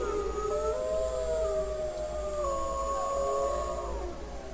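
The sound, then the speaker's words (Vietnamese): A large wolf howls in one long, sustained, wavering tone that drifts slowly in pitch and dips near the end, carried over a low, steady rumble. “Lập tức một con sói lớn tiếng gầm lên văng mệnh lệnh đó ra.”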